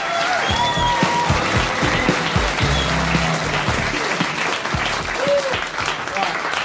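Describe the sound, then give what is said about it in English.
Loud, sustained applause from an audience welcoming a stand-up comedian onto the stage, dense clapping that holds steady for the whole stretch. “So please put your hands together, give a really big welcome to Mickey Flanagan.”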